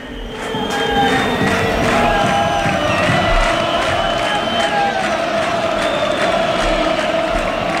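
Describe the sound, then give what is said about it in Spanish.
A football crowd at Castalia stadium in Castellón roars at half-time as the players and referees leave the pitch, a loud, steady wall of cheering and shouting with no break. “Ya se retiran, parece que sin mayores complicaciones, tanto los futbolistas como el cuerpo arbitral. Así suena Castalia.”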